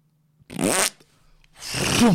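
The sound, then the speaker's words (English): A voice imitates a fart heard from a toilet cubicle in a public restroom, making two separate buzzing, wavering vocal bursts with a short gap between them, the second longer and louder. “oh, fart, water dropping, dirty water dropping.”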